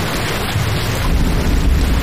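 Rain falls outside in a steady, even hiss that stays level and continuous throughout, with no voices.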